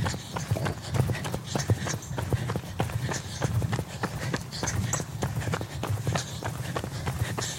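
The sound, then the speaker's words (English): Running footsteps at a quicker cadence: many rapid, evenly spaced footfalls keep a steady, brisk rhythm throughout, fairly faint against a low background. “So you should be able to hear my cadence is faster, as should yours be.”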